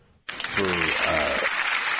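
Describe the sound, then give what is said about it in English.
Applause from an audience for a football player breaks out suddenly and holds steady and dense to the end, with voices and cheering audible over the clapping. “So congratulations. Get a round of applause for Nick Allegretti, who fought his ass off”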